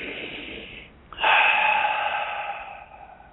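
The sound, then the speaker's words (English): A deep breath is taken during a guided meditation invocation: one long, loud, breathy inhale that starts abruptly about a third of the way in, holds steady, then slowly tapers off. “All you have to do is just close your eyes and take a deep breath.”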